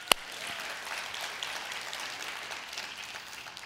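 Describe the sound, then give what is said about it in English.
Soft audience applause for students, mostly parents clapping, a faint, even patter of many hands that continues steadily, with one sharp click at the very start. “And if you're a parent, yeah, we can give it up for them.”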